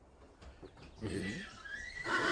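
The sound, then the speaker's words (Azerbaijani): An Iranian horse whinnies in a drawn-out, fairly loud call. It swells up after a quieter opening and carries on to the end. “Bu İran atıdır.”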